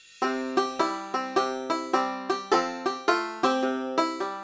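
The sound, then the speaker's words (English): Banjo playing: a steady run of bright, twangy plucked notes, each striking sharply and quickly decaying, in an even, bouncy rhythm. “Banjo is an instrument that sounds like this.”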